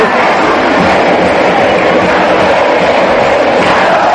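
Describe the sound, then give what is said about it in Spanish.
Argentine football fans chanting stadium songs in the packed Marcelo Bielsa stadium. Massed voices merge into a loud, unbroken roar that holds steady without pause throughout. “la hinchada argentina cantando. Justamente no el himno, sino canciones de cancha, ¿no? Porque estuvo repleto el coloso Marcelo Bielsa. A ver, ¿de qué se trató? ¿De qué se trató el canto del público argentino? Sonaba de esta manera.”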